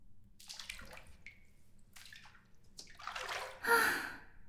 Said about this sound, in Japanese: やっぱりお風呂は極楽です。ご主人様のお部屋の湯船は広いので、二人いてものびのびできますね。